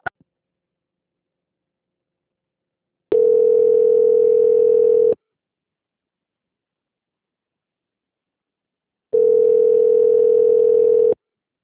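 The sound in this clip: Telephone tone while a call is transferred to a bank: two long, steady mid-pitched tones, each about two seconds, separated by several seconds of silence.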